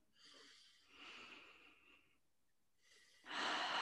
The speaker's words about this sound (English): So another deep breath in.